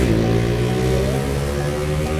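A motorcycle with a racing exhaust drones loudly and alone, its harsh, buzzy engine note holding a fairly steady pitch with only a brief dip midway.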